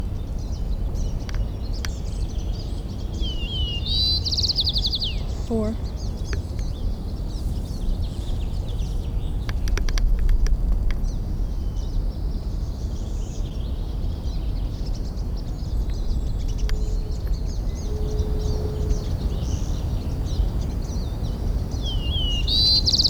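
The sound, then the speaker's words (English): A white-crowned sparrow sings a few short, high, sweet whistled and trilled phrases, spaced apart over steady low rumbling background noise. “Jill Trainer, Tape 3, Side 2, White Crown Sparrow A, continued.”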